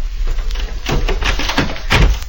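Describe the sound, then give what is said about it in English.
A door is shut and barred in a radio drama scene: a few heavy wooden thuds and clunks, with scraping between them, over a steady low background. “Hey, you bar and lock that door after us.”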